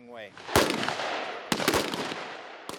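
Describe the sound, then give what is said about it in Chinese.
Gunfire at a live-fire marksmanship competition held by US and South Korean troops during a joint military exercise: a few sharp, loud rifle shots, spaced irregularly, each with a short echoing tail. “美韩军演部队还举行了确定最佳射手的实弹射击比赛”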